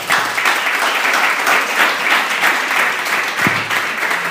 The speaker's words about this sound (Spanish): les damos un aplauso de bienvenida